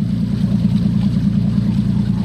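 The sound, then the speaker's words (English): Motorboat engine running as the boat travels parallel to the white sands of Ipanema Beach in Brazil, a loud, steady low-pitched drone that holds even throughout with no talking. “From a motorboat driving parallel to the white sands of Ipanema Beach”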